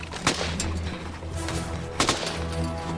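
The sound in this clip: A couple of sharp gunshot cracks ring out over a low, steady hum, with a quiet stretch between the two main reports.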